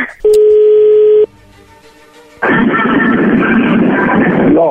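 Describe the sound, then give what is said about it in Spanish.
Telephone tones as a call is placed: a loud, steady tone lasts about a second, then a quieter, lower buzzing tone follows, and a dense burst of hissing line noise comes after it. “Bueno, vamos a llamarle a Lucio.”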